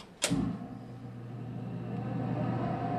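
A lab ventilation hood fan switches on with a sharp click, then settles into a steady low hum that grows slightly louder.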